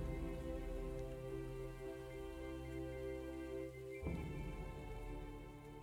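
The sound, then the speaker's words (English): Rain from a storm on a mountain falls in a continuous, faint, dense hiss. Its texture shifts abruptly about two-thirds of the way through. “It is storming now on this mountain.”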